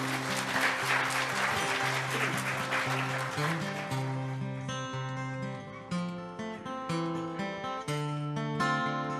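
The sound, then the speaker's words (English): Audience applause welcoming a performer to the stage: dense, steady clapping for several seconds, then it gives way to clear musical notes. “Put your hands together and make welcome Anthony Adkins.”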